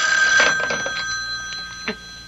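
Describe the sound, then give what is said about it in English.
A telephone rings with a steady, bright electronic trill that holds throughout, over faint background noise. “Shall I get it for you? No, I'll get it. At least I'm safe on the phone.”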